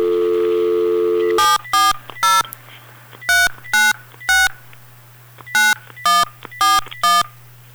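A telephone dials a number. A steady dial tone gives way to ten loud touch-tone keypress beeps in three bursts of three, three and four, with a low hum under the gaps.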